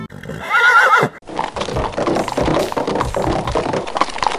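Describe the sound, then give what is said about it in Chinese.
A horse gives one loud, shrill whinny as its rider sets off out of the deep mountains, then steady clip-clop hoofbeats take over and keep a brisk, even rhythm to the end. No talking. “然后这位公子就骑着马走了。”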